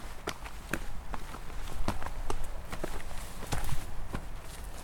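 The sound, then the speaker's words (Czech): Footsteps on stairs while walking to a bumblebee hive: many quick, uneven steps with sharp scuffing taps over a low rumbling background. “Tak pojďme nám tomu úlku, pozor, na schody.”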